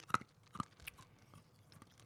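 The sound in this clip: Faint crunching of banana-flavoured Runts candy being chewed, with a few sharp, crisp bites early on followed by softer, scattered chewing clicks, no talk over it.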